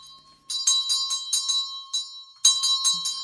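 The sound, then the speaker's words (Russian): A small bell pulled by a cord rings out in bright, rapid tinny strikes, coming in two clusters separated by a short pause, with a faint steady tone beneath. “Первое время такие звонки раздавались часто. «Житья нет от этого звона. Что там ей приспичило?»”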